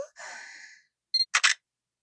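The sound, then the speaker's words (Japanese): A camera shutter fires as a photo is taken: a soft breathy exhale comes first, then a short electronic chirp and two quick, crisp clicks in close succession. “写真の撮影音なんて気にしないで。”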